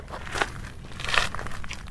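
Footsteps of people walking to a meeting point before a boat trip: a few faint, crunchy steps at an unhurried pace, with no talk.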